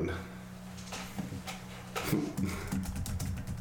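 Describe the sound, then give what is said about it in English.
Someone typing an answer on a computer keyboard, with faint, irregular key clicks and a few sharper taps over a low steady hum. “I'm just typing my answer here.”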